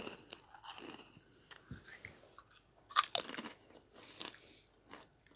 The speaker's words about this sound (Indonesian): Yeah, this become mukbang real quick man. ASMR.